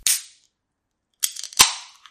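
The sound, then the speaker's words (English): A new rocket launcher fires in sharp blasts. A short, bright crack comes first, then a pause, then a crackling burst that runs into a second loud blast with a brief tail. “I just got a new rocket launcher.”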